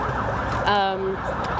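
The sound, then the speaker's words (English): An ambulance siren wails through a city square during protests, sweeping repeatedly up and down in pitch. The siren stays loud and continuous across the whole stretch. “Hopefully those police aren't coming into the square to throw some tear gas. Hopefully they just keep on going. Actually, it looks like an ambulance.”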